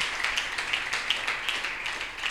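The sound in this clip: An audience clapping in church, a steady, rhythmic run of many claps at moderate, fairly faint level.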